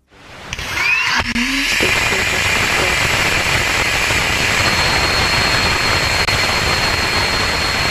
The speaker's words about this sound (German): That is a healthy Rutherford engine startup on the second stage now that we are clear of first.